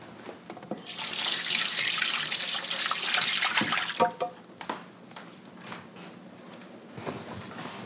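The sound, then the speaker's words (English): A tap runs at full flow for a few seconds while egg-covered hands are washed under it. The gushing stops and gives way to softer splashes, drips and rubbing sounds. “Okay, now let me go wash my hands because they're all eggy.”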